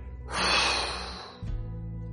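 A slow exhale during a guided relaxation exercise, one long, airy breath lasting about a second, fading out before a low, steady hum takes over.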